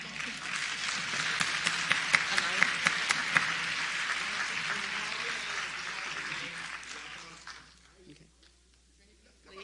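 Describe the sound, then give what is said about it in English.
An audience applauds with dense, sustained clapping that holds steady for several seconds, then thins and fades away toward the end. “I want y'all to get all the applause.”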